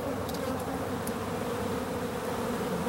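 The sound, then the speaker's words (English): Bees buzzing among trees: a steady, continuous droning hum of many insects that holds an even loudness throughout, with no voices. “Now, can you hear that? That's the sound of money. Fresh printed money. Bees and trees.”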